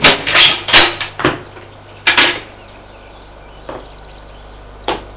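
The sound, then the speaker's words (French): A door being opened by a mother at the end of a long corridor: a quick series of sharp wooden clunks and rattles, then two quieter knocks spaced out afterward. “La mère ouvre une porte.”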